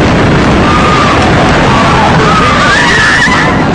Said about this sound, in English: A huge explosion now, raining debris on all of us. We better get out of the way.